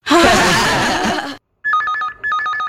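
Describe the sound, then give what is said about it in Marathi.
A mobile phone SMS message alert: a short burst of dense noise gives way to two bright, repeating electronic tone phrases, loud and clear with no talk. “SMS आहे. Message काय तो तरी बघा.”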